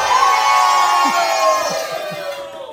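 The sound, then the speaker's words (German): A live crowd cheers and shouts at a carnival-season gathering in Mehlmeisel, a loud, continuous roar of mixed voices and whoops that holds steady before easing off toward the end. “ihr könnt auch mal schreien oder jubeln oder klatschen oder”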